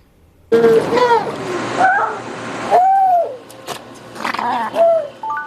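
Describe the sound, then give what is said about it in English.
Harbor seal pups at a rescue center calling: a few wavering, tonal cries that bend up and down in pitch, some overlapping, over steady low background noise. “These harbor seal pups may look like they're living their best lives, swimming, sleeping, and socializing. But they're actually patients at SR3”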